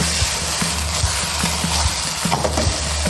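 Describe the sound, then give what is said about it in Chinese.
Shredded eel stir-fried in a wok gives a loud, steady sizzling hiss, punctuated by many light, regular taps of the utensil against the pan. “略微的把鳝鱼丝呢煸炒一下，煸炒完了以后就可以把碎的碗芡可以往它下里了。”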